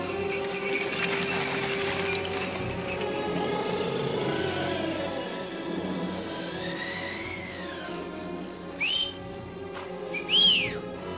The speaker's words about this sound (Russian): Шагин, Долохов с приспешниками мчатся во весь опор на тройках к дому барыни Марьи Дмитриевны. На дворе жестокая метель.